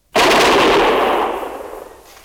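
Soldiers fire a volley of gunfire on command: one sudden, loud, dense blast that booms and then decays slowly into a rumbling tail.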